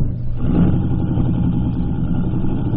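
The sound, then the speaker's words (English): A car engine as the car drives off: a steady, fairly loud low rumble that holds evenly throughout, with no voices over it. “Give you a lift? Oh, hello, Dr. Christian. I'm only going a little way up to the Sands house. Oh, I'm going there, too. Hop in. You might as well ride.”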